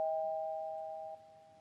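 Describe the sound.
A doorbell gives one steady electronic chime tone that fades slowly, then drops suddenly in level partway through and continues faintly. No voices are heard.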